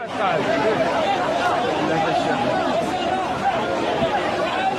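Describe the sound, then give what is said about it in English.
A crowd of thousands of migrants comes off the beach into the streets of Ceuta. Many voices merge into a dense, loud, continuous babble that holds steady throughout. “This is the sound of some of those thousands as they came off the beach and headed for the streets of Ceuta on Thursday.”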